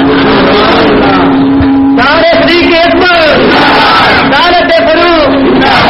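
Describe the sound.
A crowd chants a religious slogan in unison in response to a preacher's call, loud drawn-out shouted phrases rising in a couple of strong surges with voices blending together.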